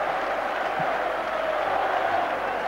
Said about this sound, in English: An emotional welcome from a packed City ground.